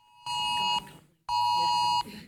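Two electronic beeps from a mobile phone alert: a shorter tone, a brief gap, then a longer one. Both hold a bright, steady pitch and sound loud and alone.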